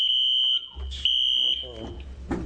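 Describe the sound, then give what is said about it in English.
A fire alarm goes off during a public hearing, sounding shrill, long high-pitched tones that stop and start again while people talk over it. “That's a fire alarm. Fire alarm. Noisy. Everybody outside.”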